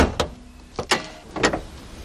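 Hood of an electric car being opened, heard as a few sharp mechanical clunks and clicks spread irregularly over a couple of seconds, with quiet rustling between them and no voices.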